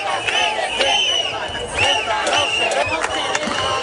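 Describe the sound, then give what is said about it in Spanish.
Demonstrators at a protest in the centre of Ceuta chant and shout. Loud voices rise in overlapping bursts over a steady crowd murmur. “Una manifestación en el centro de la ciudad autónoma, casi tres meses después de que fuera invadida, a la que, por cierto, se ha sumado el presidente Juan Jesús Vivas.”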